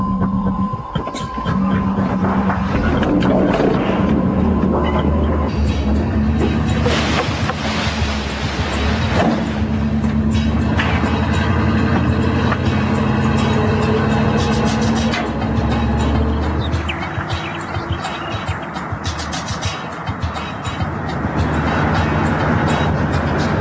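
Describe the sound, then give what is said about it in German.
A measuring truck accelerates during a parachute load test, its canopy held above the vehicle while a computer in the cab checks the load. Loud, continuous engine and rushing wind noise fills the whole stretch without pause. “Der Messwagen wird so lange beschleunigt, bis der im Fahrerhaus angeschlossene Computer die erforderliche Last bestätigt hat.”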